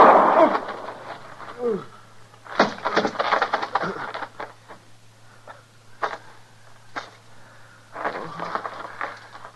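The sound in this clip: A single loud gunshot goes off at the start during a struggle over a gun in a radio drama. It is followed by strained voices and scattered thumps and shuffling.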